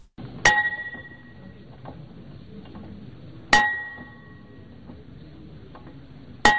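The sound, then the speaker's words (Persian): A school bell is struck at a ceremony opening the new Afghan school year, giving three sharp metallic strikes about three seconds apart. Each strike rings with a bright, decaying tone over a low, steady background. “وزارت معارف حکومت طالبان با نواختن زنگ مکتب در روز اول ماه عمل طی مراسم خاص آغاز تعلیمی سال 1403 را اعلام کرد.”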